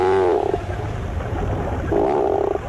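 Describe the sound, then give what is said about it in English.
Two low, groan-like calls of a tufted puffin, each a short droning moan separated by a pause, heard over steady background noise. “Although not a first-rate vocalist, the bird making this groan-like call is one of the most recognizable to the eye. These sounds belong to the tufted puffin.”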